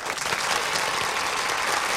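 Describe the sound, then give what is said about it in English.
Dense applause from an audience greeting a custodian-of-the-year award winner at a custodial award ceremony, a steady, loud wash of many clapping hands that holds evenly for the whole two seconds with no voices. “let's give a big hand and a warm water squeegee welcome for the outstanding custodian of the year”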